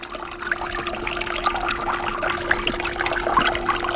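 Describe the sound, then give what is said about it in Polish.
Water splashes and rushes steadily from ceramic fountains standing in a building atrium, a continuous, even wash of splashing with a faint steady hum beneath it. “Dźwięk szumiącej wody pochodzi z fontan, które zaprojektowała i wykonała Alicja Patanowska. To są takie ceramiczne fontanny, które stoją w atrium budynku Justus Lipsius.”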